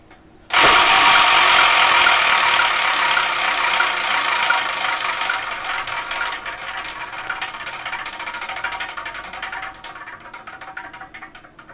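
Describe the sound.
A prize wheel that has lately tended to stick on one side is spun, setting off a sudden, loud, dense run of rapid clicks that gradually slows and thins before stopping.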